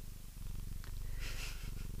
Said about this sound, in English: Isn't that, like, proven to be healing? Cat purrs? Yeah. Yeah. It, like, helps anxiety and helps you sleep.